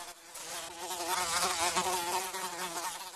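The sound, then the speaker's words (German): A housefly buzzes in a steady, continuous drone with a warbling, wavering pitch. It holds at a fairly even, moderate loudness throughout, with no voices. “Und plötzlich verwandelte er sich in eine Fliege und flog oben in die Zimmerecke.”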